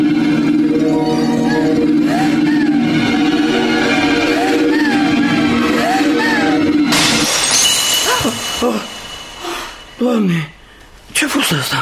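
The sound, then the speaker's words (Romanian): A crystal flower vase shattering: a sudden, loud burst of breaking glass crashes in partway through, with talking both before and after it. “Mamă, s-a auzit cum s-a făcut țândăr vasul de cristal.”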